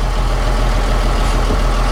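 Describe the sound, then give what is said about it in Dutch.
Low, steady engine rumble of a vehicle driving slowly in a convoy out of town, loud and continuous with no talk. “Ja, we rijden nu langzaam Emmen uit.”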